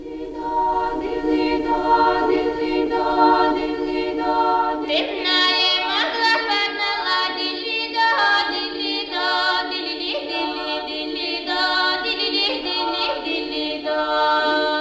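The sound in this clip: A female vocal choir, a 26-member women's group, sings sustained notes in close, bright harmony. Further voices enter partway through, making the sound richer and more ornamented.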